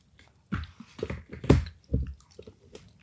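Chewing a bean from canned tuna and beans: several soft, wet, squishy chews with small clicks, moderately quiet, in an irregular rhythm.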